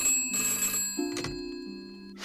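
A telephone rings as a servant carries it into a room, bursts of bright, buzzing electronic ringing at moderate loudness, broken by a short click, with no voices.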